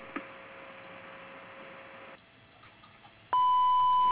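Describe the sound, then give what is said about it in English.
Answering machine beep tone, one steady, loud, high-pitched tone sounding at the very end after a few seconds of low electrical hum. “Please leave your name and number at the sound of the tone, and we'll get back with you as soon as possible.”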